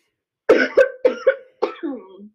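Six short, harsh coughs from a person with asthma, arriving in quick pairs with a throaty, hoarse edge, and no talking over them.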